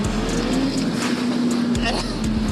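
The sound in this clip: A motorcycle accelerating hard in third gear at around 4000 rpm with the rear tyre briefly slipping: a steady, loud engine drone holds a sustained tone under a constant rushing of wind noise.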